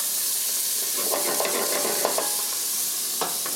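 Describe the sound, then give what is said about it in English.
Onion sizzles and spatters in hot oil while ragda is being cooked in a restaurant kitchen, a steady bright hiss broken by a few short crackles and stirring scrapes. “This is gonna splatter. I suggest be aware of that. See the smell that comes from? This is our onion.”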